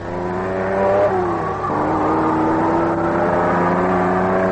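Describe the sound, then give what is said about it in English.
A Maserati race car's engine at about 75 mph through the curves at Bridgehampton during practice: a loud, sustained, buzzing harmonic drone whose pitch shifts a couple of times before settling into a steady high whine. “This is what you hear if you're driving a Maserati 75 miles an hour through the curves at Bridgehampton.”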